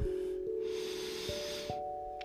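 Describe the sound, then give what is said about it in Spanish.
A slow, deep breath is drawn in through the nose during a heart-chakra meditation. It is a soft, airy hiss lasting more than a second over a quiet, sustained musical drone. “Vamos a respirar tomando aire.”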